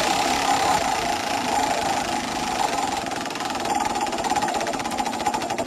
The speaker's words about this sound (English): So without further ado, let's give the wheel a spin.